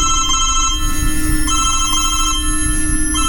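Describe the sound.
A mobile phone rings loudly in repeated electronic bursts of steady, bright tones broken by short pauses, with a constant hum underneath and no voices.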